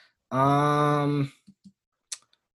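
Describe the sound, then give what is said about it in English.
A computer mouse clicks while someone goes through images. After a brief hum, a few soft, sharp clicks land at uneven intervals in otherwise silent surroundings. “let me click through them all again real quick here to make sure that I'm confident when I make this statement”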